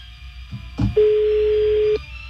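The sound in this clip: Ringback tone of an outgoing phone call: a short thump, then one steady, low, sustained tone lasting about a second before it cuts off, over a quiet hum.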